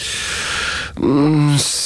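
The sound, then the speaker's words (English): A voice imitating a yawn in a storybook reading: one drawn-out vocal sound lasting about half a second, sagging slightly in pitch at the end, over a steady hiss. “Oh, tired, said the king, and he yawned.”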